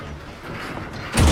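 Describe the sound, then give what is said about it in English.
A heavy door to an underground concrete bomb shelter is shut and locked, a low scrape building to one loud, deep thud near the end. “He shuts and locks the door.”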